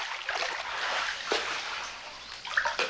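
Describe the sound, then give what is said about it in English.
Someone swimming away through water, a continuous wash of splashing and trickling with a few sharper splashes scattered through it, steady in loudness throughout. “He swims away from her.”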